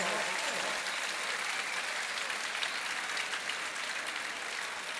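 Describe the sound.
Audience applause, dense and continuous clapping that holds at a steady, fairly loud level from start to finish with no clear voices.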